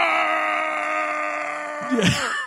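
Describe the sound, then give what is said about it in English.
A man's voice imitates a pained scream: a sustained, strained, harmonic wail held at a steady pitch, ending in a brief sharp squeal that sweeps up and down. “He's got the most hilarious scream.”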